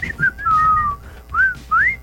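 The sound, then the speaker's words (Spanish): A person whistles a song's tune, a clear solo whistle moving through several notes that slide and step in pitch, with short gaps between phrases. “¿Cómo se llama esa canción? Una que lleva un chiflido.”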